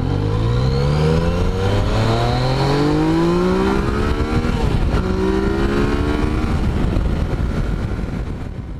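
A Yamaha three-cylinder motorcycle engine revs hard on a demo ride, its pitch climbing again and again through several gear shifts while steady wind noise rushes underneath.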